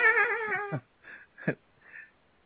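A cat lets out one drawn-out, wavering meow, followed by a few short, fainter cries and grumbles in the quiet that follows.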